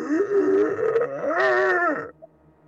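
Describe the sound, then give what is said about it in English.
A human voice imitates the groan of a monster of fused bone shards and shrapnel with a wide-unhinged jaw: a sustained, throaty, harmonic-rich moan lasting about two seconds that swells higher in the middle, then cuts off abruptly. “as her jaw unhinges far wider than it should as she just lets out this just groan.”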